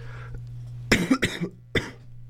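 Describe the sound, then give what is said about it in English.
Harsh coughing from a man with a lingering cough: a few rough bursts in quick succession, then one more after a short pause, over a steady low hum. “Wire and Nerve, your home for industrial music and someone who can't get over his cough, apparently. This is really killing me.”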